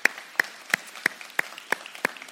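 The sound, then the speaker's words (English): Seven sharp hand claps, evenly spaced and slow, welcome guests at a morning service. Each clap is crisp and separate, with no talking over them. “Let's give them a hand today, just a welcome.”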